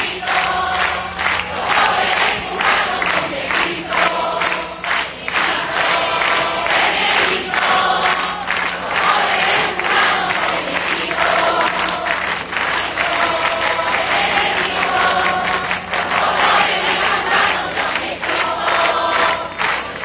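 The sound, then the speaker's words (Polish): A crowd gathered in a square in Santiago de Cuba sings for the Pope, a loud, sustained mass of voices with steady rhythmic clapping running underneath. “Natomiast słyszymy, że zgromadzeni na placu nie mają jeszcze ochoty być skupieni, śpiewają Ojcu Świętemu.”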